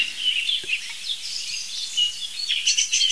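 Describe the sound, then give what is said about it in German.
A song thrush sings high, repeated chirping phrases, with a blackbird's lower song behind it, over a quiet background. “Das ist alles Singdrossel, dahinter ist die Amsel. Ist tiefer als die Singdrossel.”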